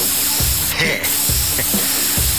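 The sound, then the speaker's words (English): Aerosol can spraying: a loud, steady hiss fills the whole stretch, broken by a few brief low thumps. “Look, here's an aerosol can. Watch this.”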